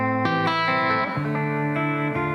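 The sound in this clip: Sustained, harmonically rich electric tones pass through a distortion effect that ranges from clean to overdrive, shifting through a few note changes. The sound is loud and dense, with no talk.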